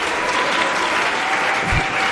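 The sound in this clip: Audience applause fills the whole stretch as a dense, steady wash of clapping at an even loudness, with no pauses or clear peaks.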